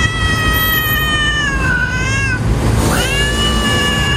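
A cat meows while fighting off burglars at an apartment complex, giving two loud, drawn-out yowls, the second rising sharply in pitch, over a constant noisy background.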